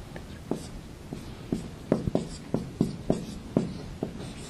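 Chinese characters are drawn by hand with a series of faint, scratchy pen strokes. Each stroke makes a short rasp, spaced irregularly against a quiet background.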